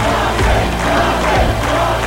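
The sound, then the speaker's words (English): A crowd at a baseball game roars and cheers in one loud, continuous swell of massed voices with no break. “Al points to the cheering crowd. Mike hesitates, then steps out of the dugout.”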